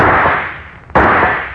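A rifle shot cracks out sharply over a dense, loud hiss, then tails off slowly into the noise.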